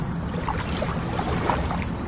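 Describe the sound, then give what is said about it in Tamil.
Boat oars push through a calm river at Bhedaghat near Jabalpur, making soft, irregular splashes and swirls over a steady low rumble of water and wind. “அதே வேளையில தண்ணீரை தள்ளுவதற்காக படகின் துடுப்புகள் எழுப்பும் ஒலி”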